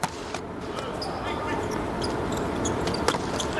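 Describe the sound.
A volleyball is struck for a serve during a match. A few sharp impacts stand out against a steady, noisy crowd wash.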